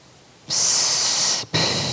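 A slow breath out during a guided breathing exercise: a long, steady, airy hiss that starts suddenly and holds evenly. It stops briefly, and then a second breath begins.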